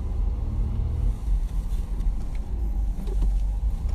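A car drives around a crowded mall parking lot on the Saturday after Black Friday, giving off a steady low rumble of engine and road noise with no voices.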